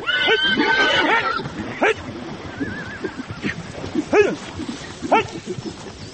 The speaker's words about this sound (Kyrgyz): Биз барганда тойчу мырза жылкынын кашында алышкан айгырларды ажырата албай уара тартып жаткан экен.